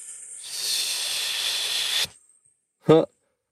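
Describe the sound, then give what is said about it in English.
Long hissing exhale made by a person as a breathing exercise for compressive diaphragmatic breathing, a steady bright hiss held for about a second and a half, then silence and a brief voiced sound at the end. “just a long hissing sound kind of helps to set up the right style of compressive breathing”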